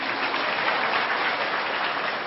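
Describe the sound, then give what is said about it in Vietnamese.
An audience applauding in a steady, dense wash of clapping that stays fairly soft and even throughout. “Cho tràng pháo tay.”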